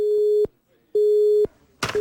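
Telephone busy tone after a caller hangs up: a steady, mid-pitched beep that switches on and off at about half-second intervals. Two full beeps sound, then a short noisy burst, then the start of a third beep.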